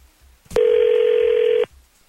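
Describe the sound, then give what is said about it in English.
A ringback tone on an outgoing telephone call: one steady, mid-pitched electronic burst lasting about a second, loud and alone, with no voices. “So we're going to call Gemma.”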